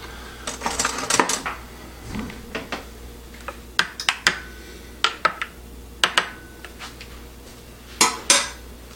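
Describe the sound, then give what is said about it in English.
Utensil clinks against a pot while bone broth is stirred: many sharp metallic taps and scrapes in irregular bursts, some clustered quickly together and others spaced apart, all fairly crisp and alone without talk. “And let's try this bone broth. Stir it up a bit.”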